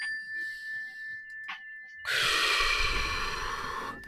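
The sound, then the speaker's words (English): A slow, deep breath taken for a mindfulness exercise: a long, steady rush of air lasting about two seconds, preceded by a faint sustained ringing tone. “let's do a mindfulness breath right now just to keep ourselves in the moment and remember where our feet are planted. Ready? Let's just take a deep breath.”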